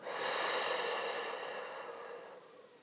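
A deliberate deep breath through the nose and mouth, taken as a calming breathing exercise: one soft, airy hiss that swells and then slowly fades.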